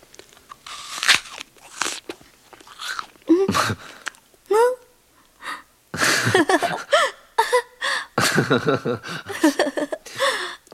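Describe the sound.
Biting and chewing a fruit: several crisp, loud crunches of bites followed by wet chewing, broken by short gaps, with murmured vocal sounds between mouthfuls.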